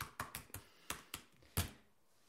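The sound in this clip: Quiet, sparse keystrokes on a computer keyboard, several sharp clicks at uneven intervals, one a little louder than the rest, with near silence between them.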